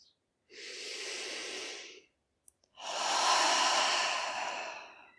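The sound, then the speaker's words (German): Deep human breathing, one slow breath drawn in for about a second and a half, a short pause, then a longer, fuller breath out, both airy and rushing at moderate loudness, with no talk. “Atme vielleicht nochmal tief ein und aus.”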